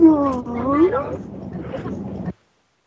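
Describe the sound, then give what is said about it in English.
A human voice imitates a whale call, a drawn-out moaning tone that swoops down and back up in pitch, followed by a rougher, breathy tail before cutting off. “Whale. Can you do a whale?”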